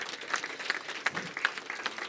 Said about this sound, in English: Can we give them one more huge round of applause?